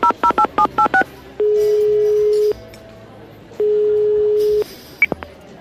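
A telephone is dialed with a rapid run of loud keypad tones, followed by two long, steady ringing tones separated by a pause, then a brief click.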